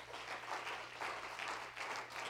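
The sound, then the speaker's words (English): A church audience claps its hands together in worship, a soft, steady wash of many hands clapping that holds evenly throughout with no voices on top. “Could we clap our hands right now to Jesus Christ?”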